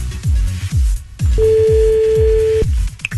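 A telephone call is placed: a single steady, mid-pitched tone lasts just over a second. Loud, repeating low thumps keep a beat underneath throughout.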